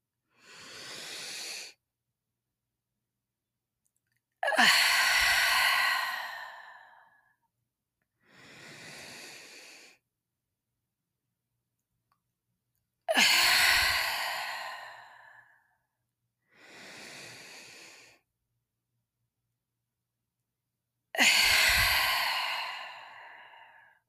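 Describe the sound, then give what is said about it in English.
During a breathwork exercise, slow breathing follows an even rhythm: a short, soft inhale, then a longer, louder sighing exhale. The pattern repeats three times with quiet pauses between breaths and no talking. “just land at the top of the breath, relax my body, and then exhale. And listen to how that sounds a little bit different.”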